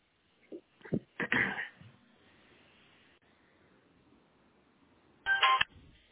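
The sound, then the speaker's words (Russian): Telephone dialing tones as a call is placed to an internet provider's technical support line: a few short tone bursts close together, then a quiet hiss on the line, then another brief cluster of tones. Faint overall. “Вот я звоню заново.”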